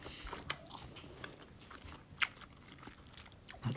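Chewing soft, chewy noodles: quiet, irregular bites and mouth sounds with a few sharper clicks, and no talk.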